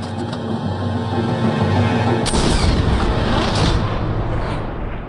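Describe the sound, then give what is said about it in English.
A musket gunshot in a film scene: a single sharp, loud burst about midway, set against a dense, steady action soundtrack that carries on after the shot. “he throws his loaded musket up into Gabriel's arms, and Gabriel shoots Tavington in the abdomen.”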